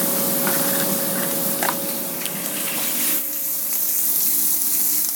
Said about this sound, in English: I put a little bit of ham in there, and I think that's making a lot of noise.